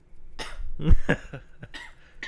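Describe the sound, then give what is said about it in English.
A person coughs several times in quick, rough bursts, a throaty bark followed by a few shorter, lighter hacks, uneven in spacing and fairly loud. “Is the coughing and the smacking and the chewing?”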